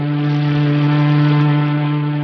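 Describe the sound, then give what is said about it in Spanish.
A ship's siren drones in a steady, low horn tone heard inside a cabin aboard the vessel, holding at an even loudness throughout without a break. “La sirena del barco, ululando a intervalos, resuena en el camarote con ecos extraños”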